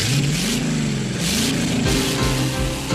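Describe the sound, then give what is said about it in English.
A car engine revs hard during a drag race, surging in repeated waves with its pitch climbing and falling, loud and continuous with no voices. “Remember that drag racing scene in Grease?”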